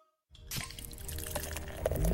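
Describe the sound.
Legend Extra Stout beer pouring: after a moment of silence, a steady liquid rush begins and runs to the end, with a splashing, dripping texture that grows slightly fuller over the last stretch.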